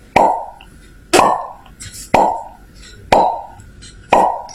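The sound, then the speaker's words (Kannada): Soda bottles being opened at a small shop, heard as five sharp, loud pops at an even pace about a second apart, each dying away quickly. “ಅಜ್ಜಿಯ ಮನೆಯ ಸಮೀಪದಲ್ಲಿ ಒಂದು ಅಂಗಡಿ ಇದ್ದಿತ್ತು. ಅಲ್ಲೇ soda bottle ಅನ್ನು ಒಡೆಯುತ್ತಿದ್ದರು.”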